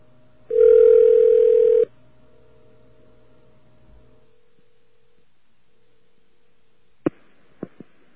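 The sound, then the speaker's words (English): A steady telephone dial tone sounds loudly for just over a second, then stops, leaving a faint low hum. Three sharp clicks follow near the end. “Dial tone, please, all right?”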